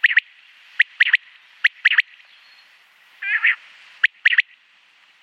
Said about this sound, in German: Ja, das war der Gesang des Vogels.